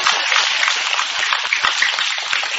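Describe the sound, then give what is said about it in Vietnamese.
Audience applause at a monk's dharma talk, a short, dense crackle of many hands clapping that stays even from start to end. “một tràng pháo tay đi”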